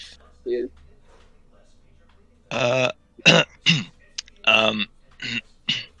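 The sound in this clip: Throat clearing, a series of rough, voiced grunting bursts of varying length that come in an uneven cluster after a faint short sound and a pause.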